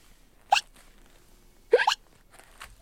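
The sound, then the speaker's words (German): Hiccups from a young kangaroo in a zoo enclosure, sharp and short vocal jolts with no talk around them. A few come in quick succession with gaps between, the middle pair close together and loudest. “Auch Schluck auf?”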